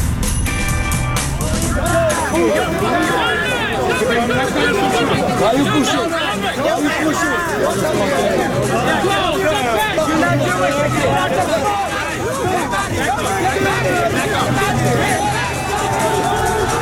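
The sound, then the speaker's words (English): Rioting crowd on a city street in Brooklyn, New York: a dense, continuous clamour of many voices shouting and chattering at once, steady and loud from start to finish. “It's a riot in Brooklyn. There's a riot in Brooklyn.”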